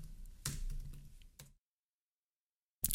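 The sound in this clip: Typing a keyword on a computer keyboard: a rapid flurry of clicking keystrokes for about a second and a half, then silence, then a short new burst of clicks.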